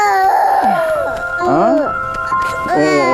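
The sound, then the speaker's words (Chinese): An infant cries in long wailing bursts with sliding, strongly tonal pitch, broken by short pauses, while voices are heard in the background. “这孩子是不是有啥毛病啊？这咋哭起来没完没了？”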